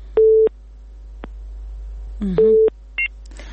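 A telephone busy signal follows a dropped call: two steady mid-pitched beeps far apart with a faint click between them, then a brief higher beep and a short burst of noise at the end.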